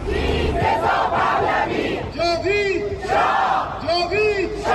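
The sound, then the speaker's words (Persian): Iranian protesters at a rally in Italy shout the names of people killed. A loud crowd calls out in unison, with strong, chant-like repeated phrases rising above the steady roar of voices. “ایرانیان مقیم ایتالیا پس از 6 ماه از کشتار 18 و 19 دی همچنان تلاش میکنن با در دست داشتن عکس جاوید نامان و فریاد زدن نامشون به جامعه جهانی یادآوری کنن”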